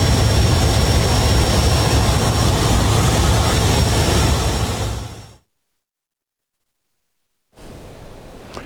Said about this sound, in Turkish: Kendini kemerle sabitledi ve uçağın kapısını açtı.